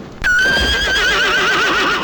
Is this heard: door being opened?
no